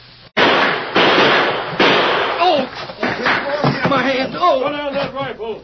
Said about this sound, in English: We heard the shooting.